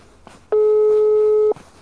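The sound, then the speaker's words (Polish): A telephone ringback tone sounds on an outgoing call to a town mayor's number that goes unanswered: one steady, loud beep about a second long, with quiet background noise before and after. “Dzwonimy do pani Katarzyny Erdman, bo do pani burmistrz.”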